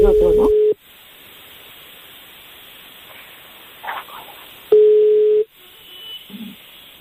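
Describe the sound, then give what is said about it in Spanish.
An outgoing telephone call rings with two short, steady, low-pitched beeps about four seconds apart, over a faint hiss on the line with a few small noises between them. “Estoy llamando, por eso no te digo nada, pero estoy atento. Mira, ya da tono. Y pita, para variar.”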